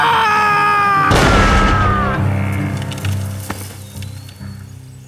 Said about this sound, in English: What you waiting for? Go on, pull the trigger.